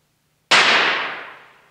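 A single pistol gunshot: one sharp, loud crack that breaks a near-silence, then a long tail that slowly fades away.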